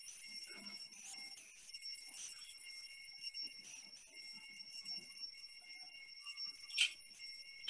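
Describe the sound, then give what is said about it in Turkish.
An alarm clock keeps ringing as someone wakes in bed, a thin, high-pitched electronic ring that pulses in a steady repeating pattern throughout, fairly faint and heard alone with no voices. “Alarm çalmaya devam ediyor.”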